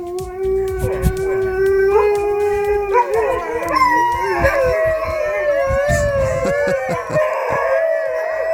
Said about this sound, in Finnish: että hyvää huomenta 26 Siperian Huskin tapaa